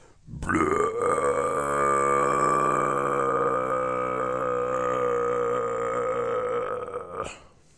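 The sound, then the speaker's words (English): A voice imitates a rumbling stomach after a heavy meal of cheesecake, almond milk, turkey and yams. It is a single long, low, gravelly groan held for about seven seconds, alone. “This is the sound my stomach makes.”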